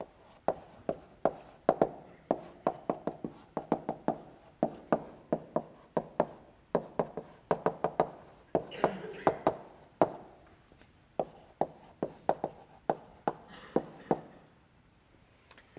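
Writing on a board during a lecture on dynamic programming: many quick taps and strokes come in irregular bursts, separated by short pauses.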